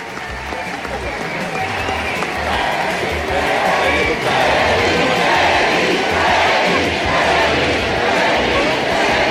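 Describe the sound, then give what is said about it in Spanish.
A crowd cheers at a political campaign rally held in Estadio Santa Laura, Chile, for a candidate's final speech before an election. Many voices roar and chant with clapping mixed in, loud and sustained throughout. “Escuchan parte del ambiente, ¿no? Acá en el Estadio Santa Laura”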